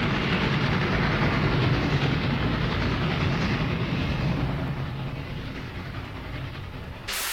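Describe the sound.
A train rumbles steadily with a dense clattering roar that eases off slightly toward the end before a brief change in tone.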